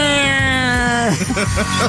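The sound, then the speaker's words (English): A voice imitates several cats yowling in an alley. A steady, loud, tone-like wail bends down partway through and breaks into wavering, rising-and-falling yowls. “Sounds like a cat out in the alley, does it not, my brothers? When you do it, yes, it does. Sounds like several cats out in the alley.”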